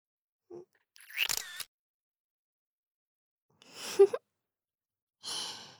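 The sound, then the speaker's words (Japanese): A smartphone camera shutter fires after a self-timer, heard among a few short, breathy bursts of sound separated by quiet gaps. “スマホカメラをタイマーにして、はい、チーズ。”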